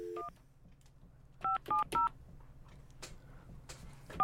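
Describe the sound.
Telephone keypad tones beep as a call is dialed: one short tone at the start, three quick tones in a row, then another at the end, over a low, steady hum.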